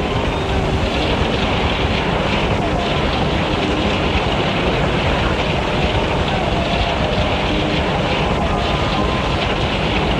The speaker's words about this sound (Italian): Si Inizia così il processo della centrifugazione che dura circa 7 minuti a 500 giri al minuto.